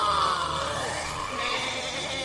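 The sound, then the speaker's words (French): Wild animal cries in a tropical jungle among baobabs, with a couple of high, wavering, harmonic calls over a steady hissing background. “Au loin, dans les baobabs, les cris des fauves résonnent.”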